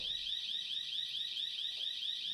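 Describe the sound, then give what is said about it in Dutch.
An electronic alarm ringing: a continuous high-pitched tone with a rapid, even warble, faint and steady throughout with no voices. “Het alarm wordt zo uitgezet, gok ik.”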